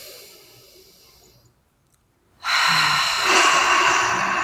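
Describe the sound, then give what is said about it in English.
A deep breath taken during a guided relaxation exercise: a loud, breathy rush of air that starts abruptly after a quiet pause and carries on steadily to the end, swelling slightly partway through. “And now let's take another deep breath.”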